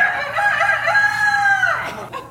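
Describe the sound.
A rooster crows once, loud and alone: a long, sustained, strained call that holds steady, then drops and breaks off near the end.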